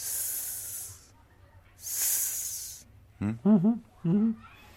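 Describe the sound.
A voice imitates a snake's hiss with two long, loud, breathy hisses separated by a short gap. A person then briefly speaks.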